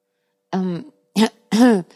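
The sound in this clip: A person clears their throat alone, in three short, voiced, rasping bursts separated by brief pauses.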